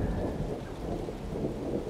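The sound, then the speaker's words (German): Steady rain with thunder on a February day: a continuous, even hiss of falling rain over a deep, low rumble, with no voices. “Und jetzt ist es irgend so ein Februar, und es regnet.”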